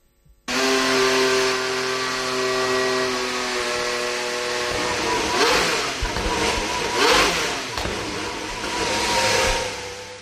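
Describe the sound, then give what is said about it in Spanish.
A Mercedes engine in an Aston Martin Formula 1 car fires up abruptly and settles into a steady, buzzing idle. Midway it revs up in a few loud surges, then drops back, with no voices. “Como es el arranque ¿eh? del motor, sí. O sea, eso al ralentí, luego pisándolo un poco, ¿no? Exacto, al ralentí le dan un poquito y bueno, y ahí lo tienes. Eh, es un momento siempre muy importante para todos los equipos, es el motor Mercedes que lleva Aston Martin”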